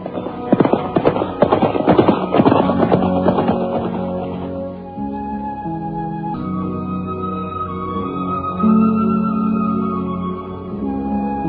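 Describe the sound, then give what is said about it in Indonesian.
Horses loaded with bundles of kapok set off from Candi Kidal. For the first few seconds their hooves clatter in a rapid, busy clip-clop, which then fades and gives way to sustained musical tones. “Kemudian mereka memapah banyak kapuk naik ke atas punggung kuda. Dan sebentar kemudian, mereka pun sudah berangkat meninggalkan Candi Kidal.”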